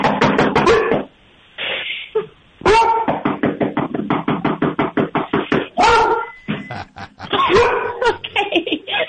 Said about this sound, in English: That's that's quality deterrent. That's deterrent barking. That's like, there's like growl and bark.